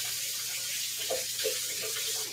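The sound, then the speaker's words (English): Tap water runs steadily from a faucet while someone washes their hands at a sink, a soft continuous hiss with faint splashing, no talk. “I need to wash my hands again.”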